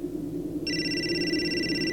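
A mobile phone rings partway through, with a steady high electronic ring tone that starts suddenly and holds without pause over a low hum.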